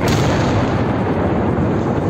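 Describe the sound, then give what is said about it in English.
A missile strike explosion in the Ukrainian capital fills the moment with a loud, dense, unbroken roar of deep rumble that holds steady without a distinct onset. “In the Ukrainian capital, a missile strike. Followed by another missile strike.”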